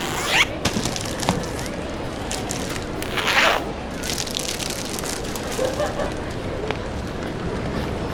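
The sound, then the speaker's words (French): Steady rain patter: a continuous, dense hiss of drops with a few brief, louder crackling bursts, steady in level throughout. “Ah, j'adore ce temps. La pluie nous révèle beaucoup sur le monde qui nous entoure.”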